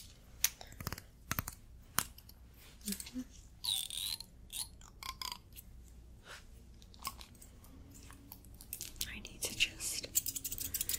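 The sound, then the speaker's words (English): Scissors trimming beard hair at a barber shop: crisp, irregular snips and clicks, close and quiet, coming in uneven bursts over a soft, hushed background. “I need to trim your beard hair.”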